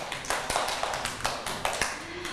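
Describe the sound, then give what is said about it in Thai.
Children clapping for a classmate during a kids' news and sharing session, a soft patter of uneven hand claps, with a few sharper claps standing out at a quick, irregular rhythm. “ปรบมือให้มากี้หน่อยค่ะ”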